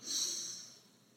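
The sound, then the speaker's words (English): A single deep breath is drawn in as a calming exercise, a soft, airy hiss that swells quickly and then tapers away over about a second, with nothing else around it. “Let's take a deep breath just to calm ourselves before we get into the topic that is accounting. All right, you're ready? Okay, inhale.”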